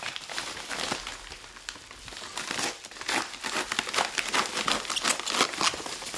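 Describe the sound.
Wrapping crinkles as a parcel is opened by hand, a continuous run of many irregular crackling rustles that grow somewhat busier toward the end, with no talk.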